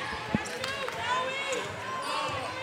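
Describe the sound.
Basketball bouncing on a court during a women's basketball game, one sharp thud followed by a few fainter bounces under crowd noise and talking voices.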